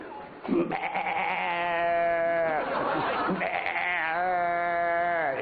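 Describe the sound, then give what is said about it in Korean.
A human voice imitates a baby goat bleating in one long, nasal, quivering cry with wavering pitch, sustained for several seconds, loud and alone. “요번엔 난 이제 짐승 소리 내겠다 예? 야 요거는 새끼 염소 소리구야.”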